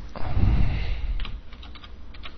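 Typing on a computer keyboard: a quick run of sharp key clicks through the second half, following a low rumble at the start.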